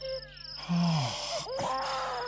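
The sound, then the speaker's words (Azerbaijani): An injured child crying in the middle of a road: a few drawn-out, moaning wails with wavering, bending pitch over a steady background drone. “Yolun ortasında bir şey var. Uşaq ağlamağının səsidir.”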